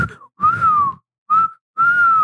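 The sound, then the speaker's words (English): A person whistles an imitation of a turkey vulture: four mid-pitched whistled notes separated by short gaps. A brief opening note comes first, then a longer one that sags slightly, then a short one and a final held note. “why was I trying to whistle a turkey vulture?”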